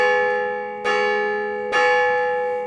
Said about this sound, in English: in the great big tower, they had a great big bell. Now, every night, the people would go to sleep, and every morning, the bell would ring,